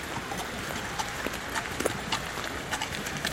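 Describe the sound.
Two horses' hooves clip-clop as they pull a horse-drawn carriage through mist in the mountains, a steady run of light, sharp clicks over a soft, constant hiss.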